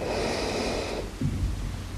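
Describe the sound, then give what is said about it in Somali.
A single slow breath, part of a guided breathing exercise, with a soft airy rush of air that is brighter at first and then settles into a quieter, lower exhale-like hiss. “Qaado neef gudaha ah. Sii day neef banaanka.”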